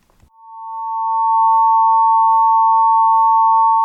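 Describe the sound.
Carbon lines from a planetary nebula spectrum turned into sound, two closely spaced pure tones that beat gently against each other. They fade in over about a second, then hold a loud, constant drone.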